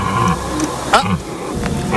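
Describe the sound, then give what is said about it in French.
A deer stag bellows during the rut at a wildlife park in Rhodes, Moselle: one short, rough bellow midway through, its pitch sliding downward, over steady background noise. “Il y a aussi les cerfs, évidemment, les cerfs. Ah, là, le cerf se reproduit.”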